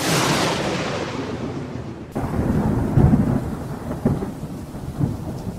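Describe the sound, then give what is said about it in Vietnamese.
Thunderstorm with heavy rain at night in remote mountain forest: a steady hiss of rain, then a sudden sharp thunderclap followed by deep rolling rumbles and a few further booming bursts. “cầm cụi tìm kiếm cửa huyệt dưới từng tia chớp rạch ngang bầu trời cùng cơn mưa”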